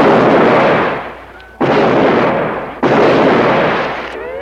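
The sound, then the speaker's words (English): Gunshots from a gun being fired: three loud booming blasts, each rolling off into a long fading decay before the next, with no voices. “Just point the gun and pull the trigger.”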